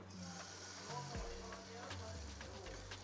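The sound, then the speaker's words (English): Food coated in a honey mustard and mayonnaise batter fries in oil with a steady, continuous sizzle, a broad hiss that holds level throughout with a low hum underneath. “So add it to the oil.”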